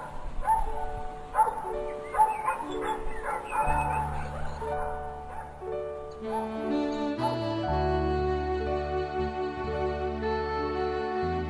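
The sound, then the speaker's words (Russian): A dog barks joyfully, with a few excited yips and barks over steady music that carries on throughout. “Ералаш от радости лаял, лаял и лаял”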